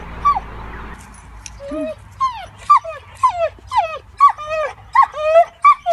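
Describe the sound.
A dog whimpering in separation anxiety, giving many high, falling whines in a steady repeating series, loud and alone with no voices.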